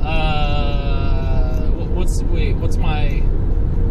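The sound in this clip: A car is being driven on windy roads. A steady low road and engine rumble runs continuously beneath a person talking.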